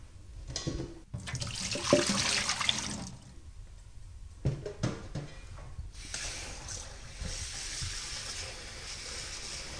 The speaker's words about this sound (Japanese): 2,3 分経ったらザルにあげて冷水にとってください。